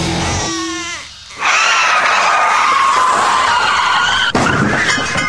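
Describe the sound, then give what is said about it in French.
Car accident sound effect with skidding tyres: after a short tonal lead-in, a loud, harsh, high tyre screech bursts in and holds steady for about four seconds, ending with a sharp click. “Avouez que vous avez sursauté au bruit de cet accident.”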